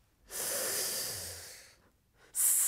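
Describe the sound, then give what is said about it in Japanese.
A deep breath drawn in on instruction: one long, airy inhale that swells and then fades, a brief pause, then another loud breath beginning right at the end. “숨을들이마시는소리가났습니다”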